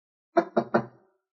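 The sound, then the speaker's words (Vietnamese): Three knocks on the door of a restroom stall, quick and evenly spaced, each a firm dull rap with a short decay, heard alone against silence. “Nghe thấy tiếng gõ cửa, Dũng”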